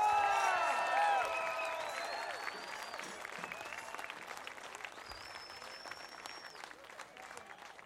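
Applause and cheering from a live concert audience in Davis, California greet a performer's introduction: a dense, steady wash of many hands clapping that thins slightly as it goes on, with scattered shouts near the start.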